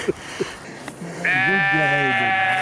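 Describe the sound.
Sheep bleating in mountain pastures: a few faint knocks, then one long, loud, wavering bleat that carries strongly to the end.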